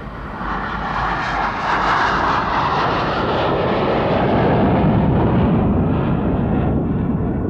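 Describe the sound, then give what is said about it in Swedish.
Airliner departing at night on a flight to Amsterdam, its engines a loud, continuous, broad roar that holds steady throughout while the upper hiss slowly fades, with no voices. “Planet avgick mot Amsterdam vid halv tre-tiden på natten.”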